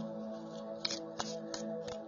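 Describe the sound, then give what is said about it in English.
A deck of cards is shuffled, giving faint, soft riffling with a few sharp snaps over a steady low hum. “I'm just going to shuffle and see what kind of message comes out for you.”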